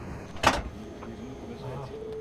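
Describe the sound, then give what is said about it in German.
A train cab door is shut with one sharp, loud clunk near the start, followed by a low steady hum. “Und unser Kundenbetreuer ist drin und wir können los. Wir können los, gut. Dann einmal die Tür schließen.”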